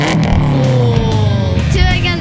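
A race car engine revs over a continuous layer of other sound, its tone sweeping down in pitch and later climbing again, loud and steady throughout.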